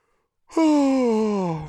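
A person yawns with one drawn-out voiced sound lasting about a second. Its pitch slides slowly downward before it trails off.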